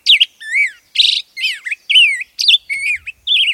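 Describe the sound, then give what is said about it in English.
A black-headed grosbeak sings a rollicking song of rich, whistled phrases, many quick warbled notes sweeping up and down in pitch with short gaps between them, loud and alone. “Listen for the rollicking song of the black-headed grosbeak this summer, especially in streamside woods.”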